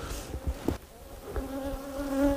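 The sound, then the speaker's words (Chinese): A large wild honeybee colony living in a tree hollow buzzes in a loud, continuous hum of several overlapping tones that waver and swell, with a few soft low thumps underneath. “那一米多要这么大至少得四张皮子这么长，你想想一米多那得有多少蜂啊，这群蜂肯定是个大群啊。”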